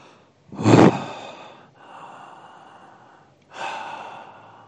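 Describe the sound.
Slow breathing in and out during a guided breathing exercise: three long breathy passes of air, the first loud and forceful, the next softer and drawn out, then another steady breath, with no talk.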